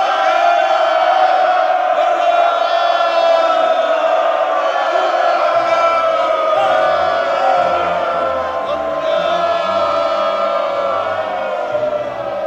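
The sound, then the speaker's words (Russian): A huge crowd roars a sustained hurrah for Lenin. The massed voices form a loud, continuous droning cheer that holds steady from start to finish. “Люди срывали с себя шапки, ура перекидывалась, и рос такой громовой клич, которого никто никогда еще не слышал.”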